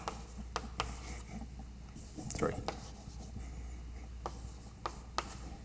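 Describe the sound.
Scratchy writing strokes on a board during a physics lecture, many short, quiet scrapes and taps scattered over a low steady background hum.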